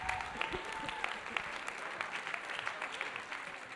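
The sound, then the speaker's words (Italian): An audience applauds to welcome a guest expert, with dense, steady clapping that stays fairly faint and even throughout. “quindi vogliamo accoglierlo con un applauso”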